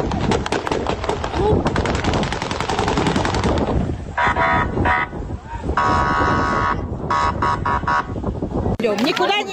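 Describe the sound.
Gunshots fired into the air to disperse a crowd at a protest: loud, rapid crackling bursts of gunfire dominate the first seconds, with crowd voices throughout and sustained horn-like tones later.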